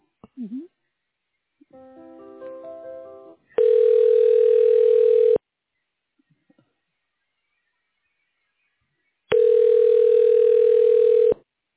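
Telephone ringback tone while a call is transferred to a hospital radiology office: two long, steady buzzing rings, each about two seconds, separated by a long silent gap.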